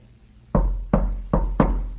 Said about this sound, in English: He's knocking.